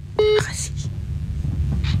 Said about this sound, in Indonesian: Ya gue telepon dulu ya.